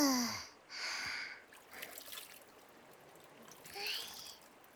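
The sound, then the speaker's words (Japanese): Water splashes as someone washes their face. A few short, soft bursts of sloshing come with gaps between them, faint against a quiet background. “これでお顔を洗うっちゃ。ザブザブ。”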